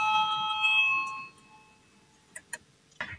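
An electric bell rings in a parliament chamber to call a vote. A fairly faint, bright ringing tone holds for about a second before fading out, followed by a few soft clicks.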